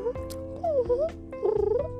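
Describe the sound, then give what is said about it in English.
A cat chirping in melodic tones, a few short rising and falling calls followed by a rapid fluttering trill near the end. “they're known for their melodic chirps when they do feel like talking.”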